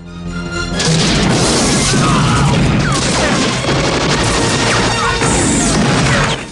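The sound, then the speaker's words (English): A grenade explosion blows up an approaching jeep in a war film. The loud blast swells up after a brief lead-in and holds as a sustained, crashing roar for several seconds. “grenades an approaching jeep. He fires again.”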